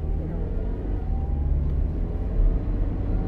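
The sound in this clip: Car driving, heard from inside the cabin: a steady, low engine and road rumble that holds an even level throughout, with no clear voices.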